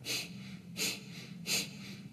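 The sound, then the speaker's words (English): Three nasal inhales during pranayama breathing practice, soft hissing draws of air through the nose spaced evenly apart, each brief and faint, with quiet between them. “You're sitting nice and tall. The inhale is natural, just sucks back into the body.”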